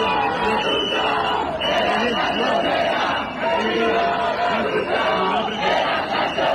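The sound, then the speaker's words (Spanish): A crowd of housing protesters in Albacete shouts and chants in a steady, dense wash of voices that rises and dips slightly without pause. “Es el sonido, como decimos, de esas protestas. La protesta, la más numerosa, tenía lugar en Albacete.”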